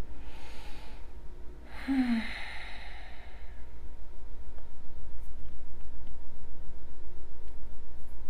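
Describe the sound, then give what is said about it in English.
Deep breathing during a yoga flow: a soft breathy inhale at the start, then a longer audible sighing exhale a couple of seconds in, over a steady low background hum with no talk. “Taking a couple of rounds of inhalations and exhalations.”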